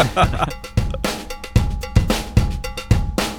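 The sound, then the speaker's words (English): A real cowbell is struck by hand as part of a beat, giving many bright, regular metallic clanks that lock into a steady groove over thumping drums, with no voices. “And this time that is real cowbell? Yeah. That's him playing it part of the beat.”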